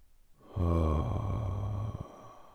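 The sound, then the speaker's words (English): One deep breath is drawn in through the nostrils into the belly during a guided relaxation exercise. The breath is long, rough and fairly loud, lasting about a second and a half, with no talk. “Take another deep inhale into your belly from your nostrils.”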